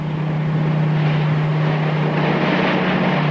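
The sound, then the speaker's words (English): A motor yacht under throttle, pushing through the water: a loud, steady engine drone with a constant low hum and broad rushing noise that holds level throughout. “Lyle gives the Wanderer more throttle. The yacht surges through the water.”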